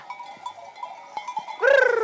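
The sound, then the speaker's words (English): A single loud bleat from a flock of sheep and goats grazing the hills above Barcelona as a fire-prevention flock. The bleat rises out of a low background near the end and wavers for about half a second. “In fact, there are now 4 flocks of sheep and goats working the hills above Barcelona.”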